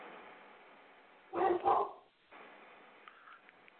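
A dog barks twice in quick succession, two loud rough bursts that rise sharply out of a low, steady background hum and then give way to near quiet.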